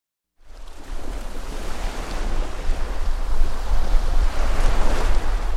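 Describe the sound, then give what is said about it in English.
Surf washing on a sunny beach, recorded on a grainy home video. A broad, steady rushing roar with wind buffeting the microphone starts abruptly and slowly grows louder. “Imagine a sunny day on the beach, captured on grainy home video.”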